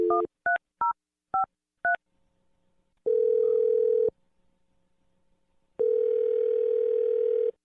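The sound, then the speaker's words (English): A telephone number is dialed with five short touch-tone beeps in quick succession. Two long, steady ringing tones follow, separated by a gap. “We're going to dial the phone number, and we're going to see if Ashley answers.”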